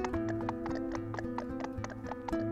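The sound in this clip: Mules walking on rocky ground in the barren Andes highlands of Ecuador, ridden by people in straw sombreros: a quiet, steady clip-clop of hooves in a regular rhythm beneath a sustained musical tone.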